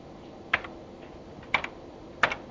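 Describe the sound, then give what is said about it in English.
Keystrokes on a computer keyboard as a transaction code is entered, heard as a few short, sharp clicking clusters spaced apart, with one cluster holding a quick double tap, over a faint steady background. “what I want you to do is type in a transaction on the top left hand corner, which is ZMUD. Just type it out, explain where it is a bit later. Type that in for ZMUD.”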